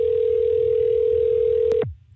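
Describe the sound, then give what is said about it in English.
A telephone ringback tone on an outgoing call holds one steady, even pitch for nearly two seconds, then cuts off abruptly with a click. “Let's see if anybody wants to answer their phone.”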